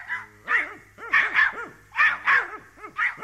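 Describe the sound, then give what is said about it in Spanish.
Dogs barking during a rain shower: a quick run of many yappy, high barks in uneven bursts, several coming in close pairs, fairly loud throughout. “Los perros, por decir algo también, ladraron con un guaguá bastante necio.”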